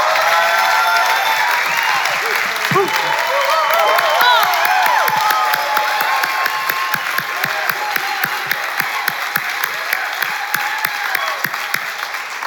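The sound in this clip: Sustained applause from a church audience at Bethel Atlanta welcoming a speaker to the stage, a dense, steady wash of many hands clapping with some crowd noise that continues throughout at an even level.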